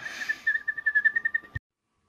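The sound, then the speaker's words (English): A person whistles an imitation of a twinkling bird call: a quick run of about a dozen short, high warbling pulses on a steady pitch, ending abruptly in silence. “that noise was a twinkling bird”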